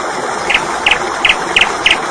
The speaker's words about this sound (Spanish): Yo no sé qué veo antes, si el chorraco de agua cayendo o la tórtola esa